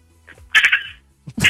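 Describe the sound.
A human voice imitates a frog's croak in a few raspy, throaty bursts, with a short pause before the last, louder burst.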